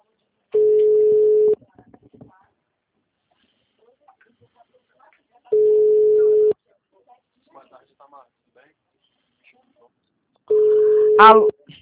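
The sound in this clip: A telephone ringback tone plays while a call is placed, three steady, evenly pitched one-second tones spaced about five seconds apart, with faint murmurs in the quiet gaps.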